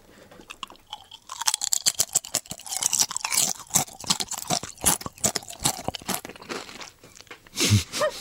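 Someone chewing and crunching a lightly salted potato food, with many rapid crisp crunches and chewing sounds in an uneven rhythm and no talk.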